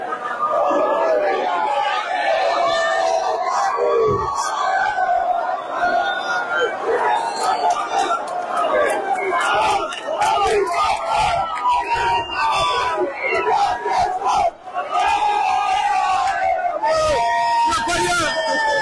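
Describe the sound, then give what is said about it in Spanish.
A large crowd of citizens crosses from the Spanish side into Gibraltar at midnight, shouting, cheering and chanting together. The massed voices stay loud and continuous throughout, with only a brief dip near the end. “Este es el sonido de los ciudadanos pasando del lado español al gibraltareño una vez que dieron las 12.”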